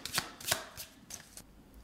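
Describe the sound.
Playing cards being shuffled vigorously before a new weekly task card is drawn, heard as a series of short, crisp papery riffles and rustles spaced unevenly over about two seconds, fairly soft, with no talking.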